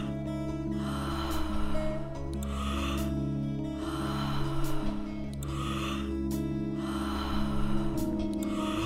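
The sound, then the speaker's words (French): Deep breathing during a guided apnea breath-hold exercise: a regular series of airy, rushing breaths about every one and a half seconds over a steady low musical drone. “Faites de belles respirations profondes. Encore 5. Donnez tout ce que vous pouvez.”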